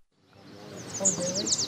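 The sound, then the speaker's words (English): A warbling vireo sings a bubbly, raspy run of quick, high notes near the western shore of Lake Erie, the song growing louder toward the end over a faint low voice. “So there's a bird somewhere over there called a warbling vireo”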